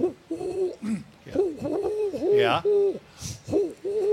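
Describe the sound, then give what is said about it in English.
Great horned owl hooting: a steady series of deep, soft, hollow hoots in a repeating rhythm, moderately loud throughout. “I've heard that. And that's a great horned owl.”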